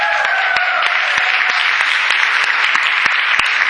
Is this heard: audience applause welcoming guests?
yes